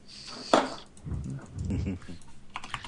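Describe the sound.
Typing on a computer keyboard: a sharp keystroke followed by a rapid, irregular clatter of clicks, steady in level, with a low murmur underneath.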